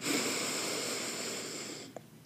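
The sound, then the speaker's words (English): A big deep breath drawn in during a guided breathing exercise, a steady airy rush lasting nearly two seconds before it stops, followed by a tiny click. “So let's take a big deep breath in”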